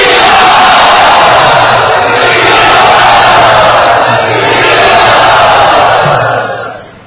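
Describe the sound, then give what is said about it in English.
A crowd of devotees chants loudly in welcome. Their massed voices blend into a sustained, roaring wall of sound for about seven seconds before fading out at the end. “Let us all very enthusiastically welcome His Holiness Bhakti Charu Maharaj by loudly chanting.”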